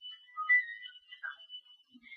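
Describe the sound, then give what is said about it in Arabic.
A phone ringing during a live broadcast: thin, high electronic tones that warble and shift in short phrases, heard on their own against silence. “على فكره من فضلكم التليفون يعني برضو اذكر كل مره معلش انا اسفه، هنا في بث مباشر بيخرج”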